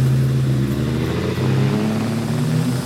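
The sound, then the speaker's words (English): A Lamborghini Murcielago sports car accelerates with a loud, continuous engine drone carrying layered tonal harmonics, heard alone without voices. “It's a $500,000 Lamborghini Murcielago. Let's go.”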